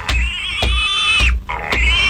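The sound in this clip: High-pitched squealing of a pig near a hut: a sustained, piercing cry broken by a few short gaps and sharp knocks, fairly loud throughout.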